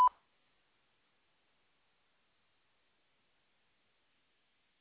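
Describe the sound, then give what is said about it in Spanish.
A single short, clear beep from a Spanish-language phone voicemail system signals the start of recording, held at a steady mid pitch and followed by silence. “Favor de grabar su mensaje después del tono.”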